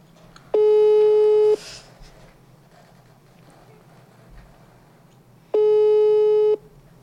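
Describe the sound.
Ringback tone of an outgoing telephone call that goes unanswered: two steady, mid-pitched one-second beeps separated by about four seconds of quiet, over a faint background hum.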